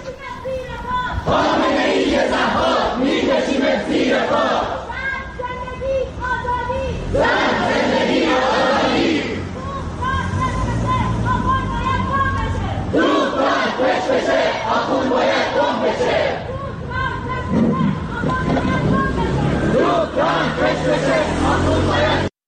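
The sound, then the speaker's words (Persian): Iranian protesters chant slogans at a rally in Seoul, South Korea. Loud, rhythmic massed voices repeat phrases in regular bursts, with short pauses of crowd murmur between each round. “این صدای معترضان در سئول پایتخت کره جنوبی بود”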